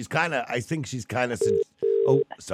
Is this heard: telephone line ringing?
yes

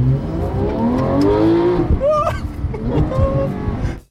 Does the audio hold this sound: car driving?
yes

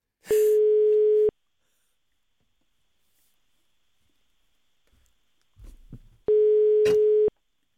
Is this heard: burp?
no

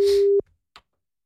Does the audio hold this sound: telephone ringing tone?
yes

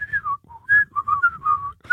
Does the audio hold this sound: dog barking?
no

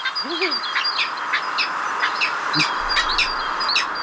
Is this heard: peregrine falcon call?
yes

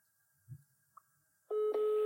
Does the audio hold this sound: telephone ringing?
yes

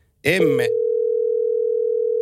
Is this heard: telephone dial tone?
yes

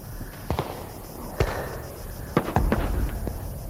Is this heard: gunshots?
yes

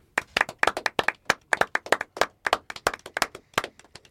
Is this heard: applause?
yes

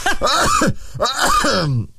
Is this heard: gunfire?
no

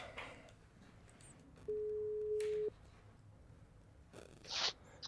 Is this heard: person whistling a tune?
no

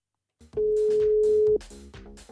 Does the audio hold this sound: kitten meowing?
no

